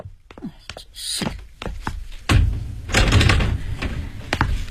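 A door is opened: a series of sharp knocks and hollow thumps, then a louder clunk followed by a rougher, rattling stretch of handling noise.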